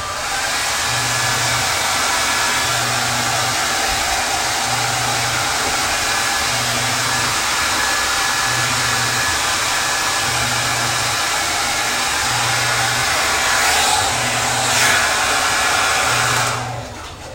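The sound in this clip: Hair dryer on turbo setting, drying long, thick hair: a loud, steady whooshing roar of blown air with a low hum underneath. It runs unbroken for the whole clip and cuts off at the very end, with no talking.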